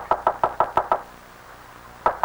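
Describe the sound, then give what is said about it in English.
Sharp knocks on a locked door: six quick, evenly spaced raps, a pause of about a second, then two more knocks. “I can't open it's locked. Oh, knock on it. Knock.”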